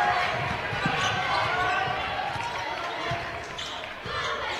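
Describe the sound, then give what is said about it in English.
A basketball is dribbled on the court during a game, its soft repeated thumps heard under a steady roar of crowd noise and a commentator talking. “Gardner brings it up, dribbles between his legs, stands inside the bubble, comes near side to Jensen.”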